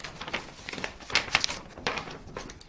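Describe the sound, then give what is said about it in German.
Crisp crinkling and rustling as an old paper map from 1870 of the Grossglockner area is unfolded, a series of short papery bursts with brief pauses between them, with no talking. “Die Kunsthistorikerin faltet die Karte auf.”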